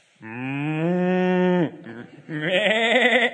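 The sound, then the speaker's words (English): A human voice imitates farm animal noises, first a long, low, steady moo-like call, then after a short pause a wavering, quavering bleat like a sheep. “I can't do pigeons, but all of those noises going off, it would have been crazy. I practice my farm animal noises quite a lot”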